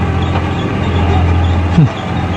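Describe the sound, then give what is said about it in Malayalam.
Steady diesel drone of a JCB excavator run by DC Contractors, working a site for a hotel group; a continuous low engine hum holds throughout, with a brief tonal shift near the end. “ഇത് നമ്മളെ ഹിമാമി hotel ഗ്രൂപ്പുകാരുടെ പണിയേറ്റെടുത്ത D C കോൺട്രാക്ടേഴ്സിന്റെ J C B ആണ്. ഈ മണ്ണ് കൊണ്ടുപോയിട്ടാ പുയക്കര നേരത്തുന്നത്.”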